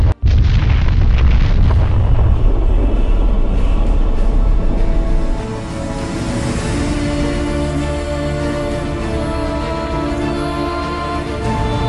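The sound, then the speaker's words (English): A moon, Deimos, explodes with a sudden, massive boom that swells into a loud roaring rumble for several seconds. It then settles into a lower, sustained droning rumble with a faint steady hum. “Before Master can answer, Deimos explodes.”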